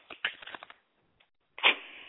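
Playing cards are shuffled during a relaxed evening chat over wine. First comes a quick run of crisp flicking clicks, then a pause, then a longer, louder fluttering riffle.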